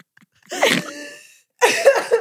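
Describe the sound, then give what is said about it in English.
Snorting straight into a microphone: two loud, harsh nasal bursts of breathy noise separated by a short silence, the second choppier with several pulses. No talking. “I'm really good at... snorting directly into the mic.”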